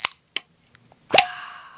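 A beer can cracks open: two light taps, then a sharp metallic pop followed by a fizzing hiss that fades, heard alone.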